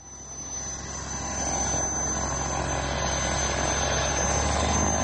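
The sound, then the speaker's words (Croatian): Propeller aircraft engine of a Lasta 95 trainer starting up and running, its propellers spinning: a loud, dense engine drone that builds over the first second, then holds steady and unbroken with no voices. “Posle tri decenije rada motor je uključen, a propeleri su se zavrteli na izvoznoj nadi srpske avioindustrije.”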